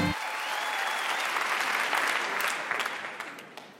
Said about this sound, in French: Préparez-vous maintenant à accueillir notre prochain artiste et faites du bruit où que vous soyez pour Jérémy Croza.